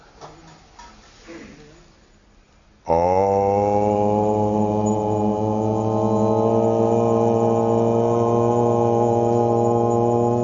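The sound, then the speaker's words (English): Group chanting of Om during meditation: after a few quiet seconds, a single deep, resonant drone begins abruptly and holds loud and steady for several seconds, rich in overtones, without breaks. “This sound, this is one of the more peaceful sounds that you'll ever experience. So it's the sound of Om.”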